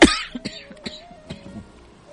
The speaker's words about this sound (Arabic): اسف اسف فجعت احد وأزعجته بهذه الكحه